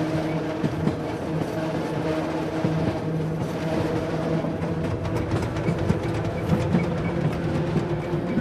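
The yellow train rolls through the mountains with a steady rumble and rattle, and many faint clicks and knocks run over the continuous noise.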